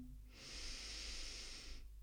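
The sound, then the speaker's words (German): A deep breath drawn in through the nose during a guided breathing exercise: one long, steady, airy inhale that swells in, holds level for over a second, then stops, with no talk over it. “Noch dreimal so tief ein. Atme aus. Tief ein durch die Nase.”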